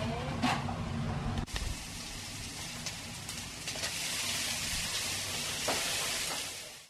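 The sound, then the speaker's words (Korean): Ramen cooks in a Japanese ramen shop kitchen, giving a steady hissing sizzle with a few faint knocks and clatters. “일본식 라면 가게인 이야기를 담은 라멘의 주방에서 능숙한 솜씨로 주문받은 음식을 만들어냈습니다.”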